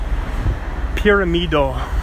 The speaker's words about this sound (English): Oh man, it's a loud truck right now.